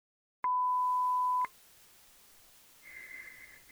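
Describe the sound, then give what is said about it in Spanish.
The voicemail tone before leaving a message: a sharp click, a loud steady stretch ending in a second click, then low line hiss and a short, steady, high beep, with no voices. “Deje su mensaje después del tono.”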